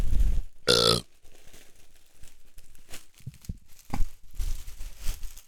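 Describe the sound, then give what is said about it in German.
A large gift package with soft fabric inside is handled and unwrapped: a loud burst of tearing paper near the start, then softer irregular crinkling, rustling and scraping of the wrapping. “Also ich habe ein riesiges Paket gerade in die Hand bekommen.”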